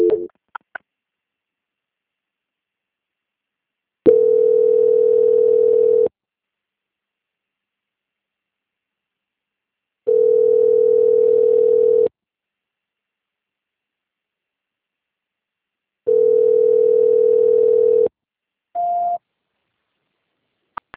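Telephone tones during a call transfer: three long, steady tones evenly spaced by silence, then one short, higher tone at the end.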